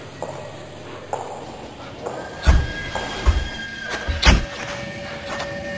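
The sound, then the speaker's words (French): A train arrives at a station with several heavy clanks and thumps. Thin, steady high squeals and a faint hum run beneath them, and no voices are heard. “Auscultu, traino!”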